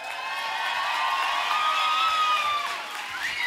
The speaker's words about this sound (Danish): Er der overhovedet nogen, der har givet det her fremragende orkester en hånd med på vejen?